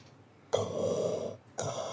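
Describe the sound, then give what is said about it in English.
A voice imitating Darth Vader's mechanical breathing: two raspy, hissing breaths, the first long and steady, the second starting near the end and cut off. “that was not a good Darth Vader breath.”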